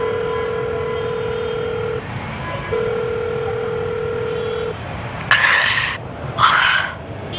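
Telephone tones as someone places a call after crossing a street: a long, steady electronic tone sounds twice with a brief gap between, followed by two short, bright bursts. Faint background noise runs throughout, with no talking.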